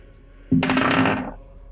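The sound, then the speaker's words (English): A single roll of large hollow metal dice during a tabletop game: a loud, bright metallic clatter that bursts in abruptly and rattles for under a second before cutting off. “The loudest die roll. Thank you, large metal dice from the Green Dragon. That's also hollow, so I think that actually makes it louder.”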